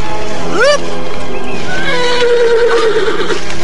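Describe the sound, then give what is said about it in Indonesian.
A horse neighs loudly: a sharp, rising whinny, then a long, drawn-out, wavering neigh, set against a steady loud background. “Tanpa diduga oleh Anting Wulan, kuda kesayangannya si Tunggul menubruk hingga ia terguling jauh.”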